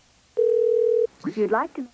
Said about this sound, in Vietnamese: Như vậy thì bác Tự chắc có lẽ bị rớt cái đường line điện thoại rồi.